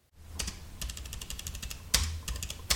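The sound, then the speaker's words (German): Rapid typewriter-like key strikes come as someone writes many X's on a page, in quick clattering bursts with brief pauses and a couple of sharper, louder hits toward the end. “Warum schreiben Sie so viele X auf die Seite?”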